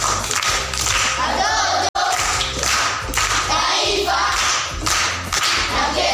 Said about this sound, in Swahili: Makofi kwa shangazi.